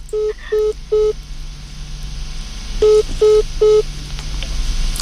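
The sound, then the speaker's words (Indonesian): Telephone keypad dialing tones as a call is placed: six short, steady electronic beeps in two groups of three, each group evenly paced, clear over a faint low hum. “kita coba hubungi Pak suaminya dulu ya.”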